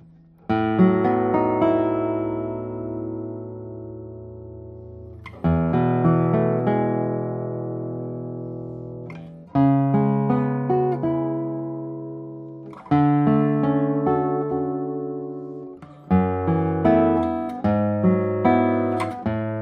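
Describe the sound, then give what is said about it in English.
Notes and chords ring out from a lightweight double-top guitar with a balsa core. Five plucked phrases each start with a bright attack and then fade slowly over a long sustain. “It's a double top with balsa core, which I usually prefer to Nomex. Yeah, it's a lightweight guitar. I would say, let's play a few notes on it and see how it sounds.”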